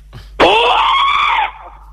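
A martial arts kiai shout, a loud, high, strained yell that bursts out abruptly and is held for about a second before cutting off, delivered alone.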